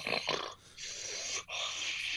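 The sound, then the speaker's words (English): A person imitates a weird, uncomfortable breathing noise: three raspy, hissing breaths in quick succession, fairly loud and noisy, with short gaps between them. “after he does the eye roll and he does this weird like breathing thing, it's kind of uncomfortable. He goes,”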